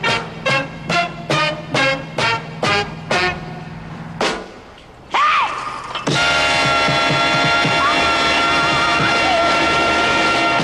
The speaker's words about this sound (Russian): Открываются ворота, кабриолет Дулли подъезжает к дому.